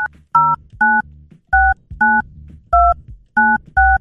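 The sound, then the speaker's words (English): Telephone keypad dialing tones as a number is keyed in to call a hotline: a series of short, loud two-tone beeps at an uneven pace, separated by brief quiet gaps. “Let me try and actually dial it quick enough to get it going.”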